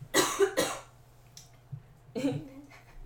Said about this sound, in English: Let me clear my throat.